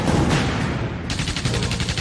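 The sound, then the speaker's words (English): Battlefield gunfire and machine-gun fire from a 1937 Spanish Civil War offensive in a river valley, a dense, loud, continuous barrage that turns into rapid, evenly spaced bursts in the second half. “The Jarama River Valley erupts in withering fire.”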